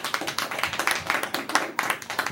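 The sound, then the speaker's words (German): Applause breaks out in a courtroom, a crowd clapping in rapid uneven bursts that rise and fall at moderate loudness for the full stretch, with no speech. “Weiter so und Beifall.”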